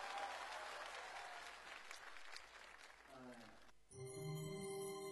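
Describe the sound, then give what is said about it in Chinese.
Applause from an audience for two teachers: dense, steady clapping from a crowd that carries on for nearly four seconds before tapering off. “掌声送给两位老师。”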